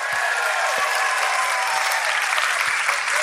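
Audience applause for the couples in the three-ways segment, a dense, steady wash of clapping that stays loud and even throughout with no voices.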